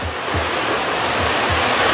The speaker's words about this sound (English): We'll flood that thing with water from all angles. All right, here's the signal. Open them up! Full blast!